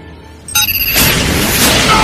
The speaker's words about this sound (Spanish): Un explosivo saca volando a Eddie, que destruye una pared y explota en el edificio de al lado.